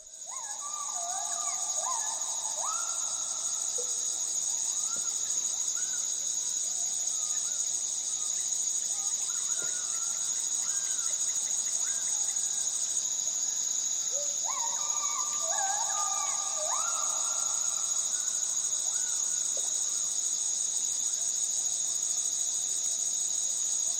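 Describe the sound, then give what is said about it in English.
Rainforest soundscape recorded in Borneo: a gibbon's whooping calls, stepping upward in pitch, come in repeated phrases over a constant high, shrill drone of insects. “This is a bit of a soundscape recorded in Borneo, and you will prominently hear a primate, the ape known as a gibbon.”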